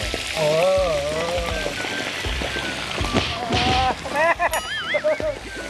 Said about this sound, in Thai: โรยเกลือลงไป เวลาทอดปลาจะได้ไม่ติดก้นกระทะ ครับนี่ แล้วก็ใส่ปลาลงไปเลย